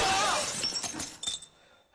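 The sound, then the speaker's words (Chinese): A glass window shatters when a gunshot bullet strikes it. A loud crash comes first, then tinkling shards that quickly fade to near silence. “打在玻璃窗上了，还好。”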